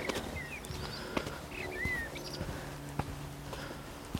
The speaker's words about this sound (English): That is a very lovely blackbird song.